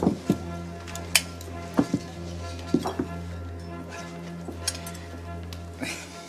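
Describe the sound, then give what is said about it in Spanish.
Tortillas are slid one at a time from a frying pan onto plates, giving many light clinks and knocks of pan against crockery over a steady low hum. “Pasa una de la sartén al plato. Y piensen que solo una es inofensiva. Y voilà. Sirve una a cada jugador.”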